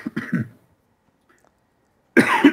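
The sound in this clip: Short coughs from a tickle in the throat: a quick cluster of three, then silence, then a longer, louder burst of coughing or throat clearing.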